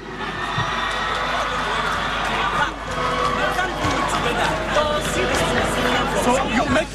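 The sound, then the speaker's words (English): A large crowd cheers and roars for Achimota School, runner-up at the 2023 National Science and Maths Quiz final in Ghana, a dense, loud wall of shouting and chatter that holds steady throughout. “Make some noise for Achimota School!”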